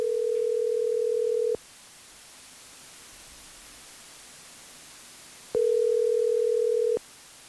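A telephone line tone sounds while a call is placed: two steady, even-pitched tones, each about one and a half seconds long. A long gap of faint hiss separates them.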